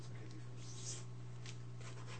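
A pen scratches quietly as an answer is written down during a party quiz game, a few faint, brief scrapes over a low steady hum.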